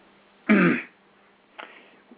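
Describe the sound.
A person clears their throat twice, first a loud, rasping burst, then a shorter, fainter one, with no talk.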